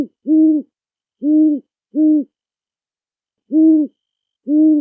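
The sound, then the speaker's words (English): Owl hooting: five low, hollow hoots stand alone in quiet, unevenly spaced, with a longer pause before the last two. “There's the western screech owl, the barred owl, and of course the great horned owl.”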